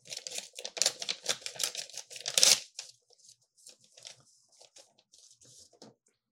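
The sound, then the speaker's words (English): A paper envelope is torn open in a run of loud, rough ripping and crinkling bursts, the last and sharpest near the end of the burst, then softer scattered rustles of paper. “Okay. Opening the first one. It's in sort of an envelope.”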